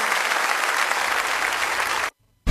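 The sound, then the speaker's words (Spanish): Congregation applause for God at a church service: dense, loud clapping for about two seconds, then a short gap of silence before the clapping starts again. “Démele fuerte ese aplauso a Él.”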